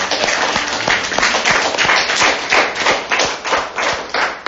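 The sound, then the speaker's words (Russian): Audience clapping at the close of a talk, a loud, dense stream of many individual hand claps that carries on steadily throughout with a slightly uneven rhythm. “Давайте еще похлопаем.”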